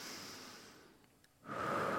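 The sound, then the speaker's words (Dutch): A deep exhale during a guided breathing exercise makes a long, soft, breathy rush that slowly fades out; after a brief quiet gap, a louder breath begins. “Dus en gaan we uitademen helemaal terug naar dat punt boven ons hoofd.”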